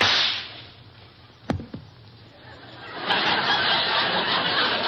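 Two sharp, quick shots crack out close together while someone shoots at targets on a rock. They stand alone over a low hiss, and a louder rushing background noise rises afterward.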